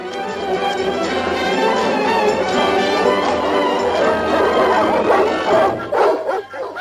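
Dogs bark loudly and without pause, a dense run of overlapping barks and sharp yips that continues throughout.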